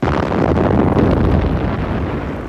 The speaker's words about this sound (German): Die roten Zungen der Geschütze an Bord des Walross leckten zu unserem Schiff. Das Gebrüll ihrer Rohre zerriss die Nacht.